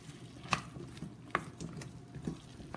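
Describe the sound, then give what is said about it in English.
Garlic chives being mixed in a bowl, making soft, faint stirring rustles broken by a few light clinks and taps at irregular intervals. “So half the garlic chives. And put those in there and mix that up.”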